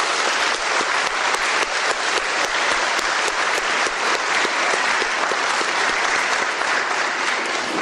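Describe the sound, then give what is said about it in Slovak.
An audience claps steadily after a children's Christmas program in a church, a dense, even wash of applause that holds for the full stretch without a break. “Veľmi pekne vám ďakujeme a ešte raz vám zatlieskame.”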